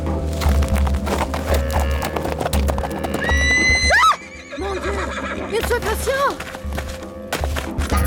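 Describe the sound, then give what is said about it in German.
A horse whinnies several times while its hooves clip-clop as a rider whips it and rides it out of bushes. A long, rising neigh cuts off sharply midway, then shorter whinnies follow over steady hoof beats and a continuous background tone. “In diesem Augenblick versetzte ich meinem Pferd einen Schlag mit der Peitsche und ritt aus dem Gebüsch heraus.”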